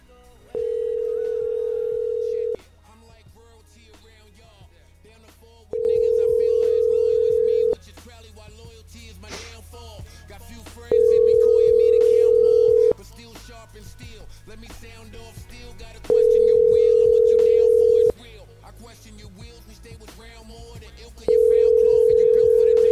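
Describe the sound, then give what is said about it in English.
A telephone line plays a repeated ringing tone while a call is being placed: five steady, mid-pitched tone bursts of about two seconds each, separated by roughly three-second gaps, over faint background sound. “And we're going to call from Ham Ladies number two.”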